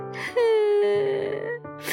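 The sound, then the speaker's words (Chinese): A child's drawn-out wailing cry, heard alone as one loud, sustained moaning tone that holds steady for over a second before tailing off, ending with a brief breathy sob. “哦，原来斑斑哭了，是因为圣诞节礼物不见了呀。”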